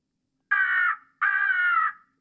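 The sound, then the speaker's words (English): Crow cawing twice, two harsh, drawn-out caws of about half a second each with a brief pause between them, alone against silence. “That's a crow.”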